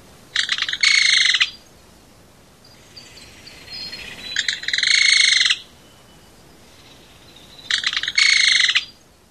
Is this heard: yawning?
no